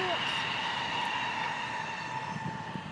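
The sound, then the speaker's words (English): A train goes by with a steady, continuous rumble and a thin, sustained high whine that holds at a constant level throughout. “That was a train going by”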